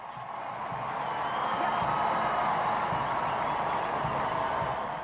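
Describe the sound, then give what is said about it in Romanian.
Spectators cheer and applaud King Charles and Queen Camilla's carriage as it travels from Buckingham Palace to Westminster Abbey for the coronation, a dense, steady crowd roar that swells after the first second and holds. “Regele Charles și regina Camilla au plecat într-o caleașcă de la Buckingham Palace spre Westminster Abbey. Pe drum ei au fost întâmpinați de spectatorii cu urale.”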